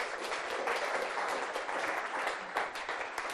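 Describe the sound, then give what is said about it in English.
An audience applauds to welcome a guest onto a show, with dense, sustained clapping that holds steady and loud from start to finish. “Shall we give her a very warm welcome?”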